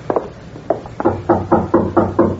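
Knuckles rap on a door in a series of firm knocks, a few irregular raps first and then a steady, evenly spaced run of louder knocks, with no talk.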